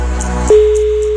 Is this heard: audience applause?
no